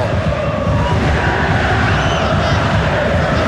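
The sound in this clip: Stadium crowd ambience at a football match with Católica supporters, a steady, even roar of many voices with no distinct cheers or chants standing out.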